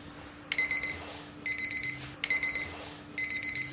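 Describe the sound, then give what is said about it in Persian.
An alarm clock rings in four short bursts, each made of rapid, high, piercing beeps with brief pauses between them. The beeping is clear and alone, with no voices. “نیما پاشو دیگه ساعت خودشو کشت انقدر زنگ زد.”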